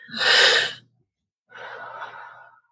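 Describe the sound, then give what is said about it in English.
A deep breath taken during a guided tapping exercise for anxiety relief: a loud, breathy inhale lasting nearly a second, a short silence, then a softer, drawn-out exhale. “Take a deep breath.”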